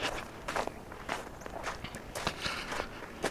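Footsteps of someone walking outdoors on a cold winter day, a steady rhythm of many light, even steps with no voices.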